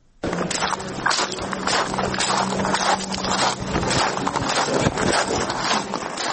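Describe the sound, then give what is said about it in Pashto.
Footsteps tread through sand at a steady walking pace, each step a soft gritty crunch, under a continuous rush of wind noise. “په دې اړه پام وکړئ ریپورت ته چې په شګو کې په قدم وهلو سره پیلېږي.”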